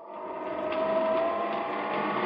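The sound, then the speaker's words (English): An elevator runs fast toward the roof of a 35-floor building, giving a steady mechanical whirring hum that holds at an even, moderate level throughout without pauses. “I've always wanted to run an elevator. Let's see how fast we can get to the roof.”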